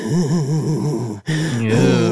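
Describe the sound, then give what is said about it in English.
A voice imitates an eerie wheezing sound, a droning, warbling hum that wavers rhythmically up and down in pitch, cuts off briefly, then resumes as a steadier, sustained tone. “And then they also said wheezing and loud bangs. There, I don't think there's a Nunavut wheeze yet, but that would really creep me out. Can you imagine being out in the far north and then you just hear this sort of...”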